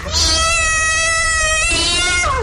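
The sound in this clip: A cat lets out one long, loud, drawn-out meow with a bright, steady tone that tails off and dips in pitch at the end.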